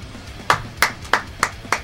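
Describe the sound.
Five crisp hand claps from a single person, bright and sharp, landing in a steady, evenly spaced rhythm with near silence between them.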